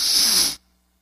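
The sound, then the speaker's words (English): A deep, sharp inhalation, voiced by an adult imitating how a row of schoolboys takes their deepest breath. It is a single airy, hissing intake lasting about half a second, then cuts off into silence. “I tell them, give me your deepest breath. You know what they do? They go like this.”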